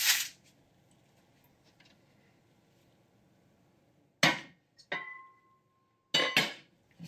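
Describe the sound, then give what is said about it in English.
A knife cutting butter into small pieces on a board gives a few sharp knocks and clinks of the blade, separated by near-silence, with one brief metallic ring, over a faint low hum. “Either way, it's a lot easier to melt the butter if you cut it into smaller pieces first, so I'm going to do that right now.”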